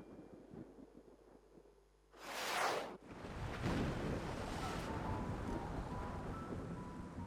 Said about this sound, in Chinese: 惊雷轰鸣，狂风骤雨笼罩了青泥洼街。